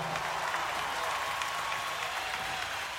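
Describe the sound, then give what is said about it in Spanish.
An audience applauds a symphony orchestra from Mendoza after its performance, a thick, even patter of many hands that stays level for the full few seconds without talk. “Y el gran aplauso se lo lleva la Orquesta Sinfónica de Mendoza.”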